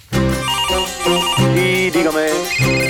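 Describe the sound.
A telephone ringtone sounds during a phone call, a loud electronic melody of shifting tones that plays steadily for about three seconds.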